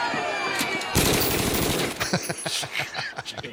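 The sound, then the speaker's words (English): AK-47 rifle gunfire: a dense, unbroken burst of rapid automatic cracks, followed by many sharper, separate shots at an uneven pace, loud throughout. “He took out an AK-47. Let's play this cut right here.”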